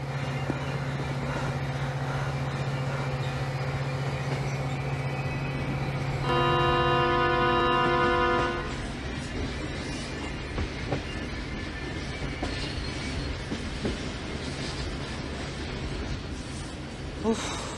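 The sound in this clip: A train runs on rails with a continuous loud rumble and rattle. Partway through, a steady horn blast sounds for about two seconds, and then the rolling clatter carries on.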